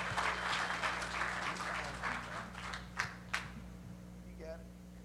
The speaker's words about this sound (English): Y'all give her a round of applause.